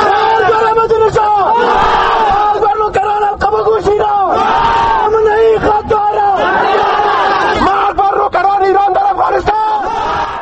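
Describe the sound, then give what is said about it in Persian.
Dozens of demonstrators chant loudly and continuously at a Kabul protest marking the international day against political executions, organized by Afghanistan's National Solidarity Party. Massed voices overlap with shouted phrases. “این صدای ده ها تن از مظاهره کنندگانی بود که به خاطر تجلیل از روز بین المللی”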